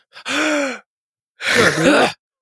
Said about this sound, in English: When you said to breathe in, I had already had a breath, so I just... It was actually a double breath that I didn't need.